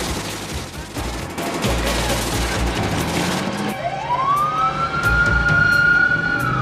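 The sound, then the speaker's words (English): Sirens of an ambulance and a fire engine speeding through city traffic in Little Italy: a loud wail rises and then holds steady over heavy traffic noise in the second half. “An ambulance speeds by, as does a fire engine.”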